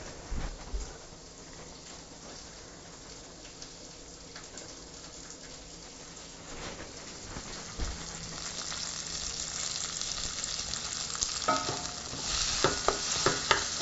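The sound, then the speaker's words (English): Bacon bits and onion sizzle in a pan as they are stirred, a steady crackling fry with many scraping, clattering hits from the stirring, growing louder and busier toward the end. “All right, stirring my little bacon bits. I'm gonna go ahead and throw in my onion so we can get this show on the road.”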